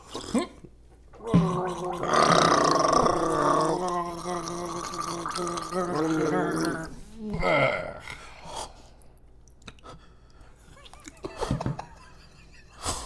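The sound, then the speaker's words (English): A person gargles chocolate milk: one long, loud, bubbling gargle of about six seconds, followed by a few shorter gurgling bursts and quieter sputters. “You want to gargle it?”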